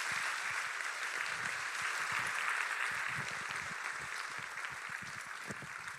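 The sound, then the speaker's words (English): Applause from a church audience welcoming the pastor to the stage at a morning service: dense, continuous clapping from many hands, loud and steady throughout, easing only slightly toward the end, with no clear voices over it. “And please, come on, put your hands together. Welcome, Pastor John.”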